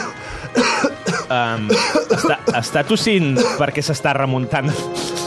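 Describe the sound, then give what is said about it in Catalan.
A person coughs several times in harsh, throaty bursts that break up and mix with ongoing talk, fairly loud throughout. “Està tossint perquè s'està remuntant en el temps?”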